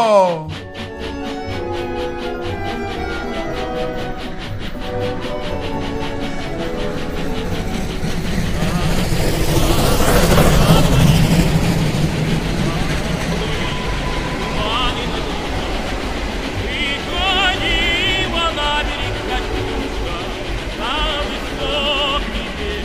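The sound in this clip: A travelling train gives off a steady rumbling clatter that swells to a loud peak around the middle, then eases back to a constant, busy roll.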